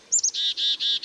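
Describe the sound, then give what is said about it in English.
Black-capped chickadee calls: two short, high notes, then a series of buzzy, lower, harmonic-rich notes in an even rhythm, clear and fairly loud with no voices. “You can usually hear the black-capped chickadees call throughout fall and winter, but they aren't singing much.”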